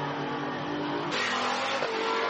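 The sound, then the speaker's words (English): Race car engine roaring on track while the driver warms up Michelin tyres in a TCE touring car event. Loud, sustained mechanical roar that surges brighter about midway and stays strong, with no talk. “Torsten there, as he's still warming his Michelin tyres up”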